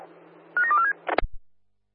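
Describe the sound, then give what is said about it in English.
Telephone dialing tones, heard during a call from underground: a quick cluster of short beeping tones, then a brief harsher burst, with no talk. “Yeah, dialing now. Stand by.”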